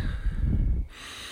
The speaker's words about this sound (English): Breathe in.